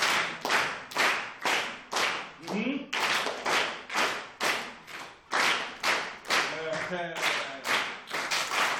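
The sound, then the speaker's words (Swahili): Many group hand claps during a lesson, beaten in a steady, even rhythm that keeps going for the whole stretch, with brief voices heard between some claps. “Ah, tupige makofi.”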